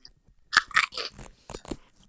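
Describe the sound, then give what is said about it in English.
Velcro being pulled apart in several short, crackly ripping bursts, fairly quiet and heard alone. “I have a little bit of Velcro here.”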